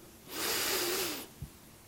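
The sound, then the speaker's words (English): A person takes a deep breath in: a single long, airy inhalation lasting about a second, fairly faint, swelling and fading smoothly with no talking. “And we breathe in. Take a good deep breath.”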